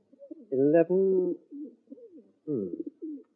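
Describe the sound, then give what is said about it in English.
Low, soft cooing from a group of plump pigeons, about eleven birds being looked over for a pie. The calls come in a few short, throaty bursts separated by pauses. “Let's see, how many birds do you have?”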